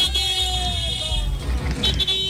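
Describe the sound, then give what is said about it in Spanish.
Car horns honk on a city avenue, sustained tones sounding over a low rumble of traffic. “Toda la raza pitando, accionando el claxon. Pítale, compadre, pítale, pítale.”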